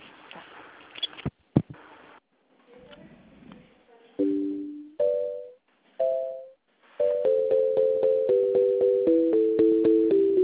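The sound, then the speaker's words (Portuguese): A telephone busy signal follows a transferred call. After brief clicks and faint voices, a few separate longer tones sound, then a rapid, evenly spaced run of short beeps repeats at a steady pitch until the end. “Não tá indo, hein? Você acha que melhor se ligar direto lá, porque tá ocupado.”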